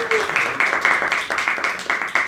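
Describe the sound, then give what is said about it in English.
An audience claps for a show's guest, with many regular, evenly spaced claps at a steady level that continue without a break. “please give a big round of applause to Kate for being the guest on the show today.”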